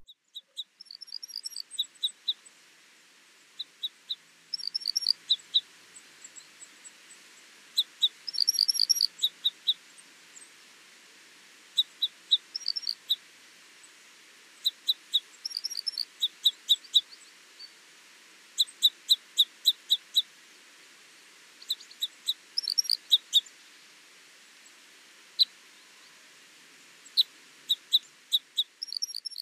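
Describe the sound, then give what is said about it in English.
Common crossbill calls and song: many sharp, high-pitched metallic call notes come in repeated quick bursts and clusters over half a minute, separated by short quiet gaps, with no talking. “Common crossbills call frequently whilst moving about in the trees, making a high-pitched metallic sound like glip glip. The song is a series of trills and twitters.”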